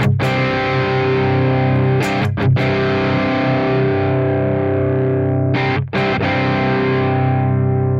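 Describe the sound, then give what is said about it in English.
Distorted electric guitar through a distortion pedal set with gain down, level up and the deep switch on: thick, sustained ringing chords with two brief breaks, played alone without talk. “So this is a kind of like a gain down level up. We've got the deep switch on though. I'm going to put it in that down position.”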